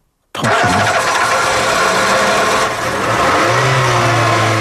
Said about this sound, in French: relâchez, relâchez la pédale d'accélérateur.